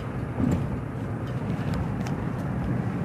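Steady low rumbling road and engine noise inside a car while driving, a continuous even drone with a faint hiss above it and no distinct events.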